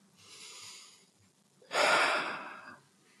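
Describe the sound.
A person takes a deep breath: two airy, breathy sounds, the first soft and drawn out, the second louder and fuller before tapering away, with no talking.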